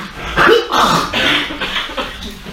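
Rough, mucus-laden coughing and throat clearing come in a few loud, raspy bursts with short breaks between them. No speech is heard.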